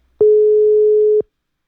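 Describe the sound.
A telephone tone sounds as a call is suddenly disconnected: one steady, mid-pitched electronic beep lasting about a second, heard alone against silence.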